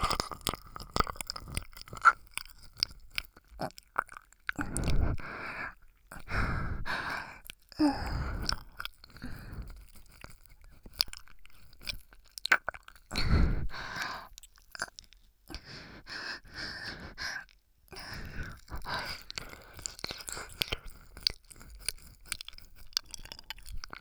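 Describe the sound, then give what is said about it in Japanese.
Wet ear-licking mouth sounds, close and intimate, made up of many soft slurps, clicks and squelches in irregular bursts with quiet gaps and faint breaths between them. “耳なめなめしちゃうんだから。”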